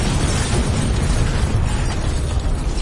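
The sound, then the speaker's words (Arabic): A car explodes in a forest, giving a loud, sustained roaring blast with deep rumbling and crackling that stays dense and steady throughout. “ورانا كان صوت انفجار عربيه سعد.”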